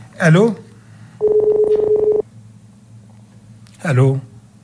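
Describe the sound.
A rapid run of steady telephone dialing tones lasting about a second, set between short bursts of a person speaking.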